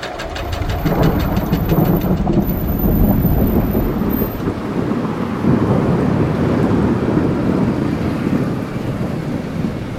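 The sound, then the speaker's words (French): Heavy rain pours down in a huge thunderstorm with rumbling thunder, a loud, continuous roar that holds steady for the whole stretch with no breaks. “Ce que vous entendez, là, c'est l'énorme orage qui a éclaté le 9 mai et qui s'est terminé par une pluie interminable et sauvage.”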